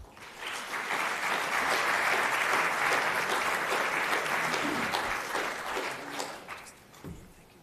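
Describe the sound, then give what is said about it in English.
Audience applause welcoming guest speakers: many people clap in a dense, even patter that swells quickly, holds for several seconds, then gradually fades. “But please just give them a hand of welcome.”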